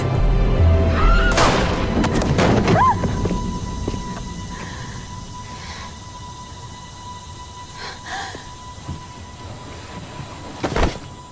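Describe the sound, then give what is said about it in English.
Gunshot in a dramatised scene where a daughter shoots her father: a few sharp, loud bangs over a low rumble at the start, then quieter sound until one more short crack near the end. “So this bitch just shot her dad in cold blood, and I will say I loved her dad's reaction”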